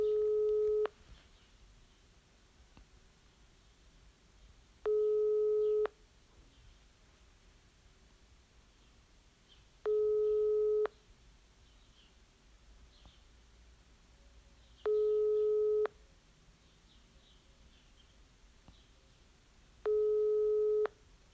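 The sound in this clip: Ringback tone of an unanswered phone call: five one-second, mid-pitched tones recur at regular five-second intervals. Faint background hiss fills the gaps between them.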